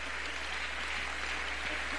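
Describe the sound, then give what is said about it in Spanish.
Congregation applauding during a Spanish-language church sermon: a steady wash of clapping, fairly soft and even throughout, with no voices standing out. “Dale un aplauso a él esta mañana.”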